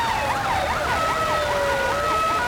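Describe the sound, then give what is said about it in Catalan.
Police sirens wail through a city street in central Ceuta, amid military vehicles: overlapping tones rise and fall in a steady repeating cycle, loud and continuous, with no talk. “Entre sirenes de policia i vehicles militars, centenars de joves caminen sense rumb al centre de Ceuta.”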